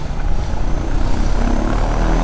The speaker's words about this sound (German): Und dann kann ich jetzt den Motor in Betrieb nehmen.